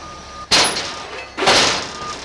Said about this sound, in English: A forklift gently picks up an old barrel stove.